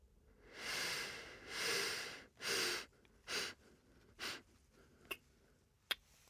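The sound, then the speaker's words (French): Slow breaths drawn during a guided breathing exercise: five airy, hissing breaths, the first three long and the last two shorter, followed by two sharp clicks, with no voices. “Je vous propose d'augmenter, ou plutôt de ralentir le rythme de l'inspiration et de compter maintenant à l'inspiration jusqu'à 5.”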